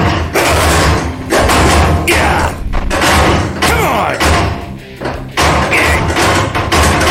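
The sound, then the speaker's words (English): A locked cellar door takes repeated kicks until it bursts open: several loud, heavy thuds and slams in quick, uneven succession. “There's a cellar door back here. Let's see. Yeah, here we are. Great. There's a lock on it. Let me just kick...”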